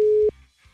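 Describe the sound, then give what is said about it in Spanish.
A single steady phone tone sounds while a call is dialed on WhatsApp: one flat, mid-pitched beep that holds briefly, then cuts off abruptly and leaves faint low background noise. “Bueno, vamos a marcarle entonces, mi querísimo Rafiki. A ver si nos contesta.”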